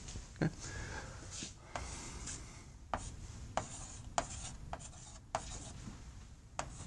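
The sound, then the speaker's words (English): Faint, scratchy strokes of writing on a board during a lecture, a soft continuous rubbing broken by a few sharper taps and marks at irregular intervals. “That term, and I just kind of spaced down to be able to write it a little bit larger.”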